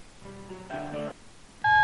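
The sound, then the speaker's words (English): Telephone line tones on a call to a store's electronics department: a few steady electronic tones and beeps, ending in one loud, sustained tone. “Okay, it's ringing, ringing.”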